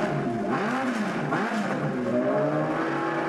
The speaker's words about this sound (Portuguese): Qual será que é o top speed do foguetão que eu vou pegar daqui a pouco? Na real, que nem ligo tanto pra velocidade. Eu gosto mesmo é do ronco.